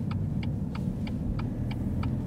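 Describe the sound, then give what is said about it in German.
A car turns into a residential street, its turn indicator ticking seven times at an even pace over a low, steady engine rumble. The clicks are crisp but fairly quiet, with no voices. “Wir fahren in eine Anliegerstraße.”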